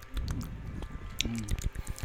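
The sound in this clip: Close-miked sips of a mimosa in ASMR style: wet slurps, squishy mouth sounds and soft smacks come in quick, uneven bursts.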